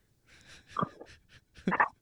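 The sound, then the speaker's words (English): A dog gives two short, breathy snorting bursts, the second slightly louder and longer, with soft snuffling breath between them. “Yeah, that was my dog.”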